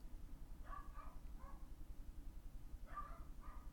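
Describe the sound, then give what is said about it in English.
Dogs barking faintly at home, a few short sharp barks in two small clusters over a low, steady rumble. “I'll see you when my dogs stop barking.”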